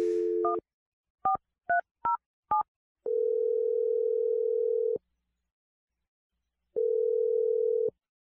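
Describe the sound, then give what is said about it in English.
A dial tone, then a quick run of a few keypad touch-tones as a telephone number is dialed, followed by two long, steady ringing tones separated by a gap of silence. “Okay, I'm going to dial the number right now.”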